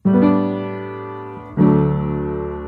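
A sustained chord cadence that combines plagal and dominant bass movement, with two ringing chords, the second struck at about the middle and swelling slightly louder before decaying.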